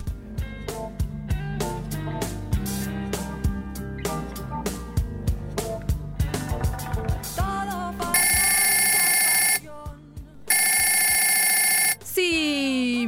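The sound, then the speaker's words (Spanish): A telephone rings near the end in two long, loud, steady electronic bursts separated by a short gap, following a stretch of other rhythmic sounds. “Suena la primera llamada de la tarde.”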